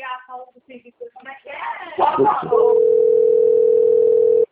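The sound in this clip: Telephone dial tone: a steady, unbroken single-pitch hum sets in after people talk and a few rustling sounds, then continues at even loudness to the end.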